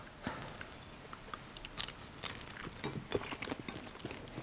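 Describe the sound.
Chewing and biting while eating roasted mackerel served on top of new potatoes: many small, faint crunchy clicks and mouth sounds in an uneven rhythm, with no talking.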